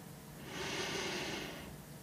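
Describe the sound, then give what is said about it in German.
A single deep breath drawn in during a guided relaxation exercise: a soft, airy rush of inhalation that swells and fades over about a second, quiet and alone with no talk. “Und dann atme ganz tief ein”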